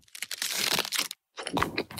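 Crackly crunching of the minty bubbles in an Aero mint chocolate bar, heard as two dense bursts of fine crisp crackles separated by a brief silence.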